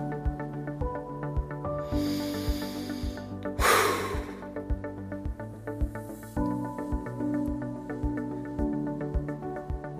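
A deep breath in and out, part of a running interval workout, rises as a soft airy rush and then a sharper exhale, heard once over steady rhythmic background music.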